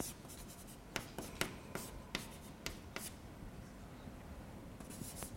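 Writing by hand, putting down mathematical notation in integral form during a physics lecture: many quiet, quick scratchy strokes and ticks in an irregular rhythm, faint and alone.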